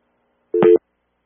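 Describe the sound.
A telephone busy tone after a caller was dropped from the line: one short, steady, loud beep in otherwise silence.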